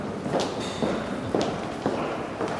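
Footsteps pace along a wide second-floor corridor in a former parliament building, a steady series of soft thuds at an even walking rhythm over a light background hiss.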